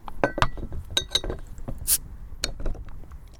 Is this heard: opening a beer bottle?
yes